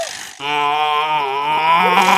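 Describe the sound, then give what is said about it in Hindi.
A voice imitating a male buffalo's call holds one loud, droning bellow for about two seconds, rich and steady, after a brief cut-off sound at the start. “तो भैंसे ने क्या आवाज लगाई? क्या लगाई? भैंसे ने आवाज लगाई, ओए”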